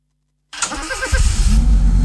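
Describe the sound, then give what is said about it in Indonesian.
A car engine starting: after a moment of silence the starter cranks briefly, then the engine catches with a louder surge and settles into a steady, low idle rumble. “Kebiasaan langsung tancap gas setelah mesin hidup ternyata kurang baik, terutama di pagi hari. Saat mesin baru menyala, oli masih membutuhkan waktu beberapa detik untuk melumasi seluruh bagian mesin.”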